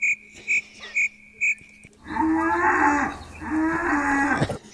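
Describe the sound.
Cattle mooing: two long, low, drawn-out moos, one after the other, following a series of short high beeps.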